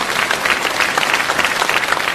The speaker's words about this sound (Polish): Przyjmuję te oklaski jako dowód zaufania.